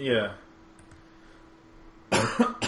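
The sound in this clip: Coughing after accidentally inhaling green tea: a brief voice at the start, a quiet stretch, then a harsh burst of coughs near the end.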